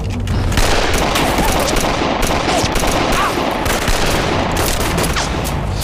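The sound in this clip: Gunfire volley from a line of soldiers, staged as a radio drama effect: a dense, loud, unbroken crackle of rapid shots that runs steadily for about six seconds with no pause.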